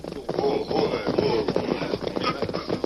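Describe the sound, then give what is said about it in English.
Hoofbeats of horses as an outlaw gang mounts up and rides to a hidden spot near a track: a fairly loud, continuous clatter of hooves with an uneven, busy rhythm. “The outlaw group discussed their plans for a few moments, then mounted and rode to a spot near the track where they were completely hidden from sight.”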